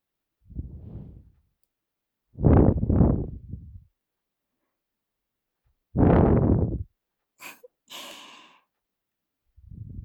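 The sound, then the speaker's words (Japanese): A child blows soft puffs of air to cool something: several breathy bursts of varying length separated by short pauses. They are fairly loud and sound alone, with no talk. “じゃあ、ふうふうするね。”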